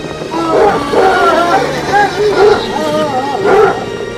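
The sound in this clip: A dog howls in a few drawn-out, wavering cries that rise and fall, each long call separated by short pauses over a steady low background.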